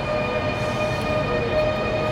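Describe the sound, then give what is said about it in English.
A passing train gives off a steady, reedy tone that could pass for a trumpet, held at an even loudness over a continuous rumble of rail noise. “That's a train. I thought it was someone playing a trumpet. It's a choo-choo. I thought it was a trumpet.”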